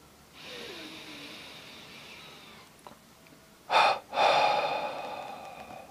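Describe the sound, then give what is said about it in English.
A person takes deep breaths with no talk. A long, soft breath comes first, then two louder, forceful breaths, and the last is a long, steady exhale. “I'll take several deep breaths and exhale.”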